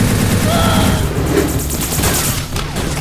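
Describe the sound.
Heavy gunfire rattles in a loud, dense and continuous barrage of overlapping shots and volleys that lasts the whole clip.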